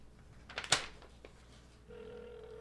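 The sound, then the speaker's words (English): A telephone rings faintly: a short cluster of bright bursts, then a steady sustained tone that carries on to the end, with no voices. “That's the phone ring.”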